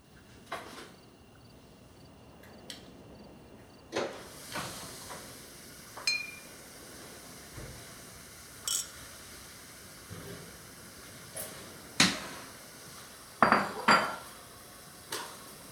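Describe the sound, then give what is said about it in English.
Pots, pans and cutlery clink and clatter during kitchen cooking, with many sharp, scattered knocks and rattles over a faint hiss; no one talks. “I can smell what you're cooking.”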